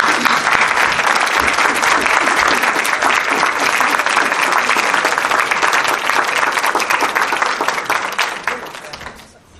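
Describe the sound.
Dense audience applause welcomes a guest speaker at a religious gathering. The clapping is loud and sustained from start to finish, then thins and fades in the last second.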